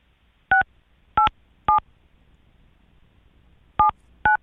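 Touch tones of a telephone number being dialed: five short dual-pitched beeps in an uneven rhythm, three close together, a pause, then two more, over a faint low hum.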